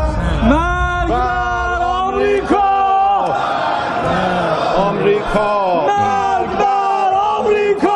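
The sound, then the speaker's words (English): A large crowd in the Iranian parliament chants the slogan "death to America" in loud, repeated rhythmic phrases of massed voices, with the chant rising and cutting off in steady cycles throughout. “This is the sound of the Iranian parliament chanting death to America.”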